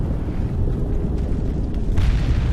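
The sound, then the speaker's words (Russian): Explosion of an aircraft standing on an airfield amid burning spilled fuel and bursting fuel tanks: a loud, continuous deep roaring rumble that surges again near the end, with no talk. “Взрывается стоящий на поле самолет.”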